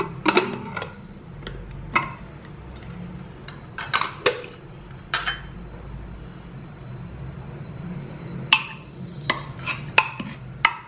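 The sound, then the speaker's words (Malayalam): Metallic clanks and clicks as a pressure cooker is opened in home cooking. Many sharp, irregular clatters stand out against quiet stretches in between. “ഇനി നമുക്ക് cooker എന്തായാലും നോക്കാം, ഒന്ന് തുറന്ന് നോക്കാം നമുക്ക്.”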